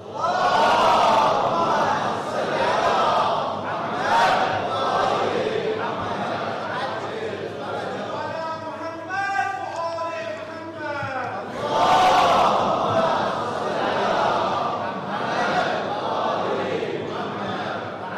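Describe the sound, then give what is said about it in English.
A lecture audience chants a loud salawat in unison to welcome a visiting scholar. The massed voices swell in repeated rhythmic phrases that rise and ebb for about eighteen seconds. “Please welcome Sheikh with a loud salawat.”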